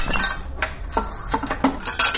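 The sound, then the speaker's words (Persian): A one-rupee coin drops into an old coin telephone, giving a few bright metallic clinks and rattles over a steady low background rumble. “این یک روپه را انداختیم از بالا دیده.”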